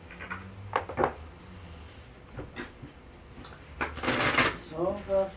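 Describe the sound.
Playing cards being shuffled during a card game, with a few soft riffling and slapping bursts that swell to a longer rustle near the end, followed by a brief voice.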